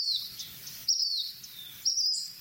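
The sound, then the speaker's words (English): An unidentified bird calls: three brief, high, thin whistled notes spaced about a second apart, each sliding slightly downward, clear over a quiet low background. “There's that mystery bird again.”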